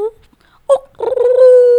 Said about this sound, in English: That's a dog.